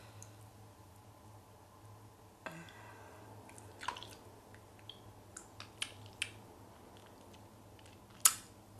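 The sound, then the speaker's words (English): Faint, wet mouth clicks and smacks come from licking brightly colored candy pieces. The sounds are sparse and irregular against near silence, with a sharper click near the end. “Now I'm gonna lick the yellow. Tastes exactly like the green. Now I'm doing the orange.”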